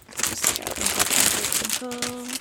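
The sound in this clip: Crinkling from handling a music album with a sticker on it, a steady crackly rustle that carries on while a person talks over it.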